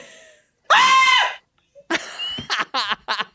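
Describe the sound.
A voice imitates a squeal during a game: one sustained, high, bright squeal lasting under a second, loud and alone, followed after a short gap by brief voiced sounds.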